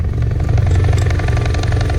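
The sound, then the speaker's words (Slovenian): A military helicopter takes off with a loud, low engine roar and a fast rhythmic throb of rotor chop and clatter that holds steady throughout, with no voices. “Po trenutnih informacijah je zeleno luč za vzletanje dobil vojaški helikopter.”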